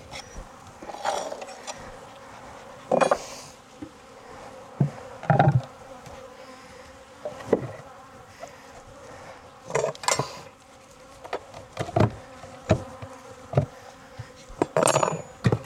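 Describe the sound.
Bees buzz steadily around an open beehive during an inspection and cleanup, with a droning hum throughout and many scattered clunks and taps from handling the hive, with no talk.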